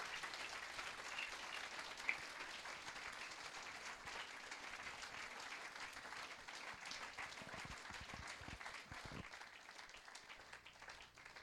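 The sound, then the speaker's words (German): Audience applause after a church speaker's introduction: steady, faint clapping from a crowd that runs evenly throughout with no talk over it. “Gebt ihm mal einen kleinen Applaus.”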